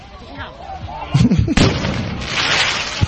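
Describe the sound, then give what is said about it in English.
Fireworks being shot off during a night of crowd unrest: a few sharp, booming bursts break out over a constant rumbling, noisy background, the loudest near the middle and one more short crack at the end. “We got some more video right here. This is additional fireworks.”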